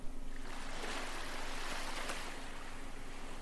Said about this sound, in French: Et maintenant, vous vous mettez à écouter les vagues de la mer.